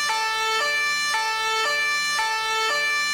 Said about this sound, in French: Maintenant, écoutez cette sirène de police. Voilà ce que vos oreilles perçoivent si vous êtes à bord de la voiture.